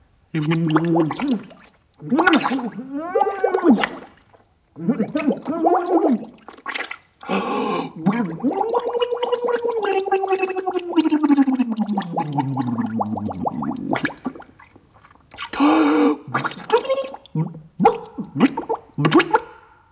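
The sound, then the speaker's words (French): Gurgling of a man pulled into the water, a voice-like bubbling in several bursts with one long warbling stretch that slides downward in pitch. “moi, poisson manqué étant plus fort, je tire l'homme à l'eau.”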